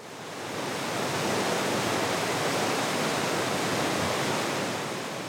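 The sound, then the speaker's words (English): A flooded Arkansas River rushing under the Garrison Avenue road bridge at Fort Smith: a steady, dense, hissing roar of fast water, loud and unbroken throughout, swelling slightly at the start and easing a little at the end. “That's the sound of the Arkansas River rushing under the Garrison Avenue Bridge between Fort Smith and Oklahoma.”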